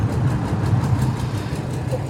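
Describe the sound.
A railway vehicle's engine idles with a steady, even low rumble and a faint regular pulsing, holding the same pitch and level throughout.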